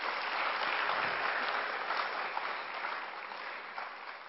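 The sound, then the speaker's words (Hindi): An audience at a youth forum gives loud, thick applause that holds steady and then gradually thins and softens toward the end. “तो अपने लिए एक बार जोरदार तालियां”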